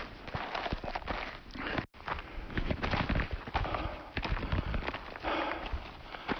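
Footsteps walk through a vast flower field, a run of many soft, brushing steps at a steady pace, fairly faint throughout.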